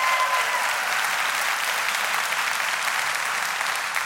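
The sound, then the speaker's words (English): Church audience applauding, a dense, steady wash of many hands clapping that holds at an even loudness for about four seconds without pause. “put your hands together and let's just welcome our church family”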